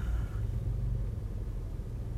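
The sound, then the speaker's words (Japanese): A car engine rumbling inside the cabin while driving after work: a steady, dense, low drone that continues throughout, with no talk. “ライブしましたね今運転中です今仕事が終わって”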